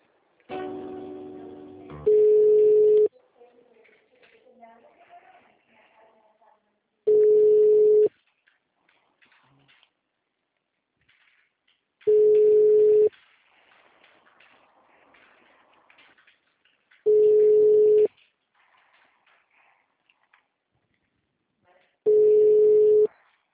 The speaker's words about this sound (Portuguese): Sim, só um minutinho, por favor, que eu vou transferir a ligação.